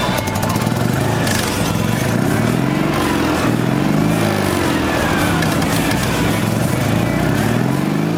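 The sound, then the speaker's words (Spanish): Engine of a Méhari off-road car, a two- or four-wheel-drive vehicle, running steadily: a loud, continuous low rumble with buzzing harmonics that waver slightly in pitch, with no voices. “este meari que escuchamos ahora es un todoterreno con tracción o a dos ruedas o a cuatro ruedas”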